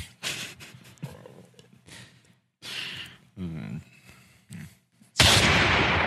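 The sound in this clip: A single loud, harsh gunshot from a real gun bursts in at the very end, after several stretches of voices and sighs.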